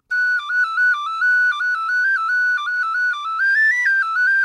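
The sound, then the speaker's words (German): A tin whistle, the Irish folk instrument, plays a lively melody alone, with clear, bright, pure high notes that step up and down in quick succession. “also eine Blechpfeife, die funktioniert im Grunde tatsächlich so wie eine Blockflöte. Viele Kinder in Irland benutzen die auch als Einsteigerinstrument, wie die deutschen Kinder die Blockflöte. Aber die Whistle klingt doch ganz anders. Ich spiele gerade mal was an.”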